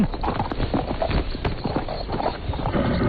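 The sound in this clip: Horse hooves clip-clopping as the horse is ridden: many steady, even hoof steps at a walking rhythm, moderately quiet, with no voices.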